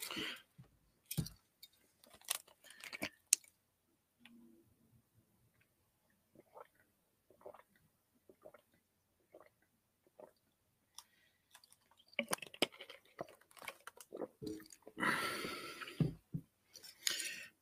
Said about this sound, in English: Before I read the comments, I'm about to take a sip, man. Stay with me.